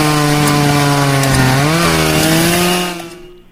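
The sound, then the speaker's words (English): Chainsaws cutting down trees in a yard roar with a steady, buzzing engine whine. The pitch dips slightly partway through, then holds before the sound fades out at the end, with no voices. “every time you're talking, it sounds like there's a machine on. Oh, it's chainsaws.”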